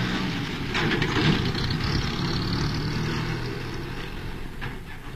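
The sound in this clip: A small car's engine as the car drives off, heard as a steady, broad rumble with a low hum that holds throughout, with no voices.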